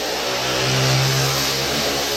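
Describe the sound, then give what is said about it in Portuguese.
A motorcycle passing, its mid-pitched engine droning loudly and continuously with a slight swell in the middle of the pass. “A moto sempre passa.”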